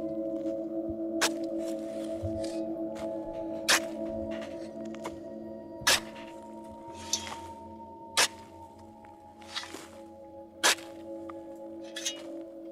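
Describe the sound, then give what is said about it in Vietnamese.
A hoe and shovel strike into the loose earth of a grave dug up at night, many sharp, crunching hits spaced a couple of seconds apart over a steady low drone. “Từng nhát cuốc, nhát xẻng cứ thế cật lực thúc vào nấm mồ của ông cụ đáng thương.”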